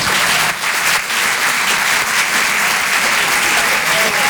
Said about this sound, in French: Faites du bruit, s'il vous plaît, pour Sophia Bellaves.